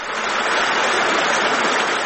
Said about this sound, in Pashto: دا د خوست ولایت د تڼۍ ولسوالۍ اړوند د نریزي له غرونو بهیدونکي دایمي اوبه دي